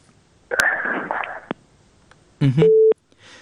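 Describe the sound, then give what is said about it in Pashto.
A telephone busy signal sounds after a caller's line drops during a phone-in. A burst of noisy line crackle comes first, then a short, steady mid-pitched tone. “د وردګ صاحب اړیکه شلیدلې ده.”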